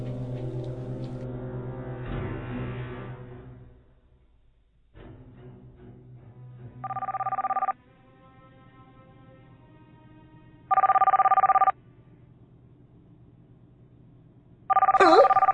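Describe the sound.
A mobile phone rings in a cinema, sounding as three short, evenly spaced bursts of a tonal ringtone. Talking and a low hum come before the rings.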